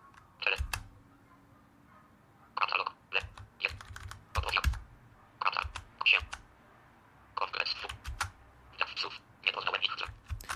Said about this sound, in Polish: Idę na początek, żeby się przenieść do końca, naciskam te lewy, prawy i K.